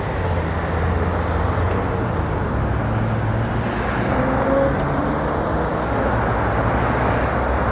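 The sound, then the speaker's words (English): Steady low rumble of road traffic at a street corner with a crosswalk signal, as a truck swings wide through a turn. Engine and tyre noise stay loud and continuous throughout, with no clear separate pass-by. “Whoa. That truck swung wide.”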